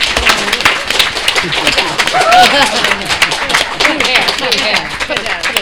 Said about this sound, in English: real quick, if you could do me the kind favor and give our panelists a loud, raucous round of applause.